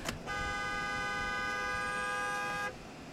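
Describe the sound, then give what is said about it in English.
A car horn gives one steady, sustained honk of about two and a half seconds at a box truck pulling out ahead, a flat, loud tone over low road noise. “Sorry, I had to honk my horn at somebody.”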